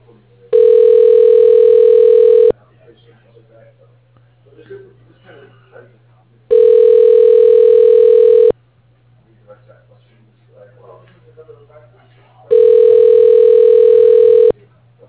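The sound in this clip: A telephone ringback tone plays while a call is put through: three long, steady buzzing tones about two seconds each, spaced by quiet gaps with faint background sounds and a low hum underneath.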